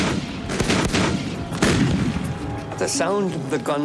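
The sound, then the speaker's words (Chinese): An artillery barrage of roughly 700 Allied cannons firing together: heavy, overlapping booms and blasts merge into a continuous rumbling roar, with sharper bursts standing out. “首先，约700门盟军大炮发动了第一轮攻势。 当时万炮齐发，炮火轰鸣，”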